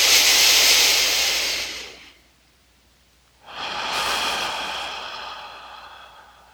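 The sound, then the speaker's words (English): Deep, airy breathing during a guided breathing exercise: a long breathy exhale, a quiet pause, then a slow, drawn-out inhale of similar length, steady and hissy with no talk over it. “Exhaling, exhaling, exhaling. And now inhale up from the earth.”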